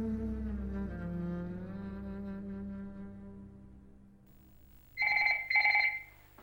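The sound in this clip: A telephone rings twice with a call from base camp on an Everest expedition. The two loud, bright electronic bursts come close together, each about half a second long, following a lower sustained droning tone.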